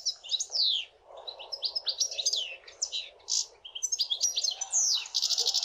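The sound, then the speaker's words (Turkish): A European goldfinch sings a rapid, high-pitched twittering song of tinkling chirps, trills and buzzy notes in quick bursts, alone and fairly clear. “Hem Stiglitz var sesinden dolayı hem de Distelfink diye bir Almanca ismi var. Şimdi bir sakayı dinleyelim.”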